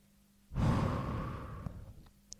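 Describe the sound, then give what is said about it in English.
A deep breath during a guided relaxation exercise is heard as one long, soft, breathy exhale. It swells quickly and fades over about a second, faint and alone. “So, take a deep breath, inhale, exhale.”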